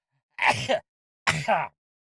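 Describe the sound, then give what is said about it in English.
Two sneezes from a person with badly congested sinuses. Each is a short, loud, voiced burst, with a brief silence between them. “I'm going to have to sneeze, so I'm just giving you a heads up.”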